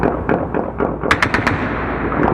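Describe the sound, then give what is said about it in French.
Gunfire crackles through the night in Kabul, with shots fired in celebration after the date of Eid was announced. Scattered softer pops are followed by a quick burst of sharp, loud cracks, over a steady background rumble and with no talking. “Aussitôt la date de l'Aïd annoncée par les responsables talibans, des tirs ont commencé à déchirer la nuit dans Kaboul.”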